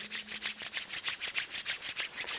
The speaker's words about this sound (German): Zum Abschluss kannst du nochmal die Hände reiben.